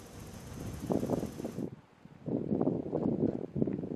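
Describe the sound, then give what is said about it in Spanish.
Gusty wind blowing during a wildfire in Niebla, a low, rough buffeting roar that swells in waves, drops to a short lull midway, then surges back strongly. “Esto que escuchan, el viento, es el mayor enemigo del incendio en Niebla.”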